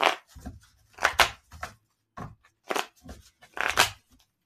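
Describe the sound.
Tarot cards being shuffled: a series of soft, papery bursts and riffles of varying length, separated by brief gaps.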